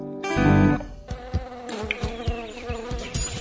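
A mosquito, the kind that spreads dengue, buzzes in a loud, harmonic drone that swells near the start, then keeps humming more softly through a run of quick, regular pulses.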